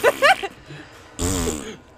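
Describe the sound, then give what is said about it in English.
A fart sound effect plays from a soundboard button as a single loud, buzzy, rasping blast of about half a second. A brief voice-like burst comes before it. “We're gonna bust right out the fart button.”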